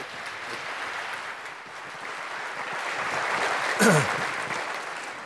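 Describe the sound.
An audience applauds to welcome Pastor Buddy, a dense, steady clapping that lasts throughout and swells slightly toward the end.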